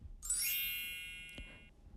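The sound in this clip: Mobile phone ringtone: a bright, high chiming tone that holds for over a second before fading. It is faint, over a low background hum.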